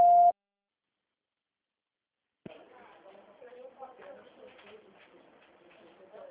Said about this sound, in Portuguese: Please leave your message after the tone. When done, hang up or press the pound key.